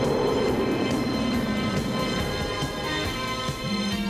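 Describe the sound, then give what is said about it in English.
A spaceship landing gives off a loud, sustained rumbling drone layered with steady tones, continuous and dense throughout, with no voices. “Ooh, that's not a star. What is it? It's a spaceship. And it's landing right in front of us.”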